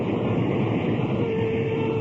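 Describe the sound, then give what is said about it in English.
A train rumbles at a railroad station, a steady, continuous low roar of rolling stock. A thin tonal whine joins in during the second half. “I turned and headed for the railroad station.”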